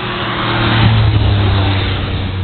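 A car engine roars loudly and continuously as the car drifts at a drift event. The revving drone swells briefly in the middle and then holds steady, with no voices.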